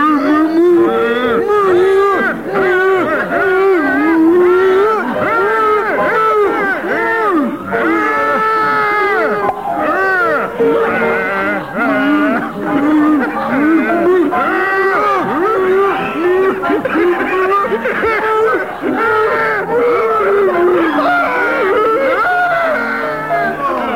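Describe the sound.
Voices imitating cows mooing during a party game: long, wavering, moaning moos that overlap almost continuously for the whole stretch, mixed with talk.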